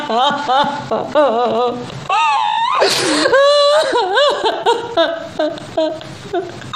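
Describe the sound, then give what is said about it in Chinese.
A person cries loudly in wavering, high-pitched wails and whimpers, the sobbing voice rising and falling in strained bursts. “你哭什么哭啊？”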